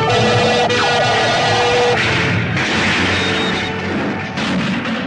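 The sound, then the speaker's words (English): Starship phasers firing point blank while the vessel is under heavy attack: a loud, dense, continuous barrage of blasting and roaring effects that holds strong throughout, with brief tonal whines cutting through. “Phasers, fire, point blank.”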